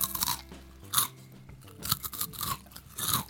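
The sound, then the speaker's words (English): Crunchy Cheetos being eaten close to a microphone: many sharp, crackly crunches and chewing bursts come in an irregular rhythm, fairly soft but crisp and close. “Cheetos are probably not the best snacks to have while you're interviewing somebody. Into a microphone.”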